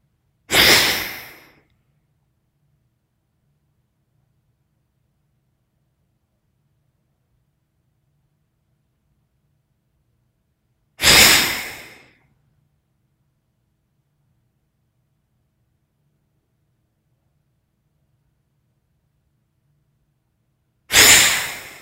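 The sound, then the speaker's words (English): Deep breaths drawn in through both nostrils: three long, airy rushes, each spaced about ten seconds apart, with near silence between them. “and then inhale both nostrils, deep breath”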